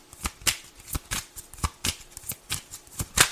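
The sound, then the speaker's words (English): Playing cards are shuffled by hand and some slip loose and fall out of the hand. Many crisp, papery riffles and snaps come in an uneven rhythm, fairly quiet, with no talking. “Okay, something is off because these cards just fell out of my hand.”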